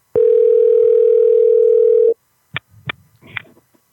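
A telephone call rings out with one steady, unbroken ringback tone lasting about two seconds, followed by a few brief clicks and faint sounds.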